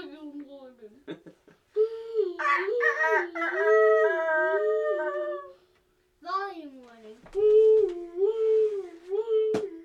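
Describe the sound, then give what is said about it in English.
A person imitates a rooster crowing, a few loud, wavering, strained cock-a-doodle-doo phrases with short pauses between them. “Yeah, it's not my best rooster.”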